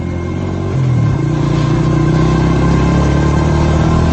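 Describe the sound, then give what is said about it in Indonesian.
Loud motorcycle engine accelerating away after escaping a traffic jam, its steady droning hum stepping up in pitch early on and then holding strong and even, with no voices. “Setelah aku berhasil keluar dari kemacetan itu, aku langsung gas motorku.”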